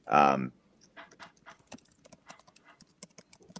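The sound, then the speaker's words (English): Typing on a computer keyboard as questions are entered: many quick, light, irregular clicks and taps follow a brief voice at the start and continue to the end at a low level. “So I guess to start, I'll type him the question here.”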